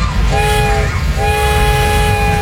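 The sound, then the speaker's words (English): A train horn sounds over rumbling rail noise, promoting a railroad festival with live steam engines: two loud, sustained chord blasts, the first short and the second longer, over a steady low rumble, with no talk. “Ride miniature trains, experience a full-size railroad, watch live steam engines in action, and explore incredible train displays throughout Carillon Historical Park.”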